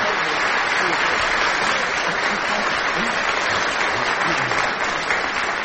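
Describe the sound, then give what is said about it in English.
Audience applause after a song, a loud, dense wash of many hands clapping that holds steady and unbroken for several seconds. “Worthy applause.”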